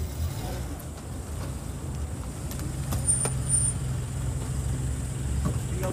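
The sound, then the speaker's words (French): Road vehicles rumble as ministers arrive at the Council of Ministers meeting in their new Renault R5 official cars, which replaced Mercedes. A steady low engine and traffic drone runs throughout, with a few brief sharper sounds partway through. “Ceux-ci s'y rendent dans leur nouveau véhicule de fonction.”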